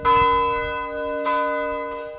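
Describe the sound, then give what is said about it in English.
Ringing of a 150-year-old church bell: a few loud strikes, each blooming into a long, sustained metallic hum of overlapping tones that carries between the blows, heard alone. “Every night for more than a year, someone from the congregation has climbed the narrow staircase at the front of the church to ring the 150-year-old bell.”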